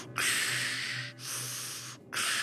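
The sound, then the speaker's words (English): A voice imitates the harsh, back-and-forth breathing of a respirator: three long, hissing breaths separated by short silent gaps, the last one cut off. “the sound that fades in instead is the noise of a respirator. Like the harsh breathing back and forth”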